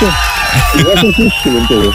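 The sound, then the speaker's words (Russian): Applause and cheering on a radio show, a steady crowd roar running beneath loud talk. “Эти аплодисменты для тебя.”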